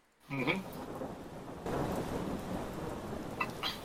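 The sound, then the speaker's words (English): Pouring rain falls on an empty street, a dense, steady hiss that thickens and grows louder partway through and then holds evenly to the end, with no talking. “standing in a completely vacant street. In the pouring rain.”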